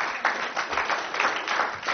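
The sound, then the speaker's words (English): Polite courtesy applause from an audience at a fitness gym's anniversary announcement, a brief patter of scattered hands clapping at moderate volume with no cheering. “Courtesy clap, I appreciate that.”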